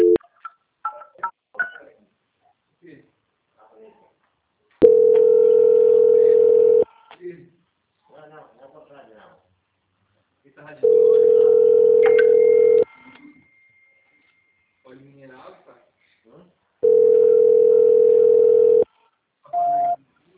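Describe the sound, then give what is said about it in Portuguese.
Telephone ringback tones while a phone call is being transferred: three long, steady electronic tones of about two seconds each, evenly spaced, with faint voices and small sounds in the gaps. “Eu vou transferir a ligação, tá? Só um minutinho. Tá bom. Transferência.”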